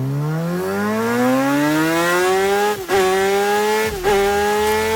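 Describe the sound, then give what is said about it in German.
A MotoGP racing motorcycle with a test rider on a lap of the Spielberg race circuit screams loudly as its engine pitch climbs steadily. It dips briefly twice at gear changes before rising again. “Also du kannst mit einem MotoGP-Testfahrer eine Runde über den Spielbergring fahren”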